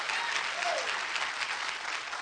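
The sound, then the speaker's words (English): Congregation clapping hands together in church, a dense, steady wash of many hands that stays loud and even from start to finish. “Somebody that believes that, clap your hands and say amen.”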